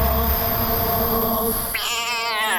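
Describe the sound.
A cat meows, sending a drawn-out, wavering harmonic cry through the second half over a steady low background hum.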